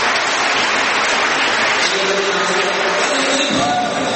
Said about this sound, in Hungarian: Ennél jobban is meg tudjátok tapsolni.